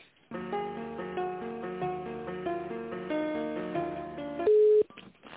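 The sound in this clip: Telephone line sounds while a call is being transferred: a thin, tinny on-hold melody of held tones plays steadily, then cuts to a loud, sustained single beep before the line goes quiet.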